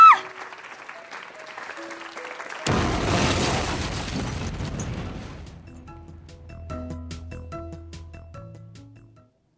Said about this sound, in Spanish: ¡Corre, salgamos de aquí! ¡Esto va a explotar!